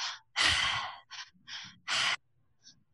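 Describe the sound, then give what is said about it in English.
Breathing goes in and out through the mouth only, with no nose breathing, as a rhythmic series of loud, airy breaths of uneven length. Long, forceful breaths alternate with short, quick ones, separated by brief silences. “So you want to breathe in through the belly, up into the chest, and out through the mouth. So we're not breathing at all through the nose.”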